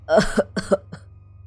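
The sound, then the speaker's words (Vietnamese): An old woman coughs with a choked, strained throat: a quick run of a few rough, harsh coughs that trail off into a fainter final one. “Tiếng bà già phát ra khó nhọc, cùng với tiếng ho mắc nghẹn trong cổ họng.”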